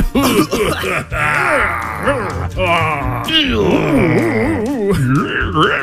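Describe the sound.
A voice imitates eagles coughing up food, making loud, wavering groans and retching moans that swoop up and down in pitch without a break.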